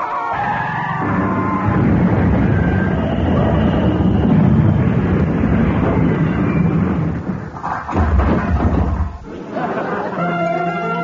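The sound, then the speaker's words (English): Crash sound effect in a comedy radio play: a long, loud rumbling, skidding roar that holds steady, then briefly breaks and surges again near the end. “Ladies and gentlemen, we are about to crash.”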